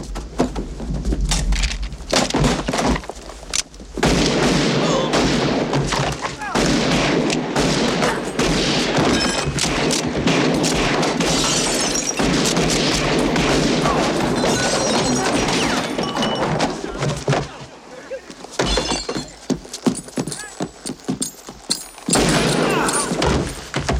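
Revolver gunshots in a radio drama: many loud cracks and booms fired in rapid, dense volleys, with brief lulls between bursts.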